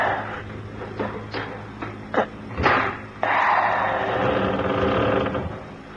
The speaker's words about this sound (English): Try the catch on the window. Okay. If we can open it, we can hear what's going on. Well, there's nothing going on. Well, try and open it anyway.